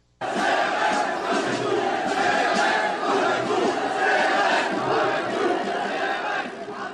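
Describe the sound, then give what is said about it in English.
Demonstrators chant in a street protest in Paris: a loud, sustained mass of crowd voices that rises and falls in rhythmic swells for about seven seconds. “How about this sound from France? This is demonstrators chanting in Paris.”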